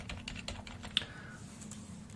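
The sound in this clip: Typing on a computer keyboard while writing program code: many light, irregular key clicks, quiet and steady throughout, with no talking.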